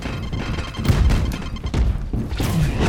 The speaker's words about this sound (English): Grenade! grenade.